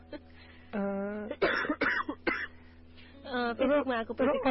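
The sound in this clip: Harsh coughing from a person whose throat feels tight and sore: a few rough, throaty bursts break up stretches of speech.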